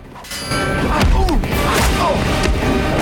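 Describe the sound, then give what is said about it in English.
Heavy thuds and smacks from a film fight scene where a boy strikes a guard leaning against a cart with a frying pan. A few loud, sharp hits burst out over a dense, steady din of scuffling action. “A guard leans against the cart and the boy hits him with a pan.”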